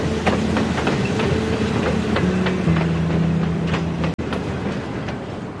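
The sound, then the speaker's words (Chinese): A train rolls along steadily just after leaving the station, a continuous loud rumble with a regular clickety-clack of wheels over rail joints and a faint steady hum, with no talk. “现在车开了”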